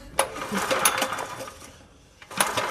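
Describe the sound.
A petrol engine that is leaking fuel from the wrong place is cranked but fails to start, giving a few short whirring, rattling bursts with a lull before the last attempt.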